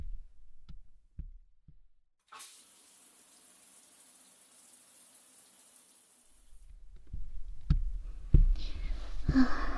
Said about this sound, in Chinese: 洗澡去了。